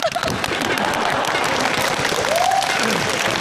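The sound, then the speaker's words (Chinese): Loud audience applause in a comedy sketch, a dense, unbroken clatter of many clapping hands, with a short voice rising briefly above it midway. “鼓掌。”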